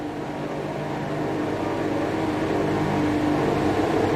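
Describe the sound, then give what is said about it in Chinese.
Racing cars drone steadily as they return to their starting grid slots after a tyre-warming lap, a continuous, even engine rumble with no distinct revs or passes and no voices. “现在呢是完成了一圈的暖胎之后呢，所有的赛车呢回到各自的发车格上。”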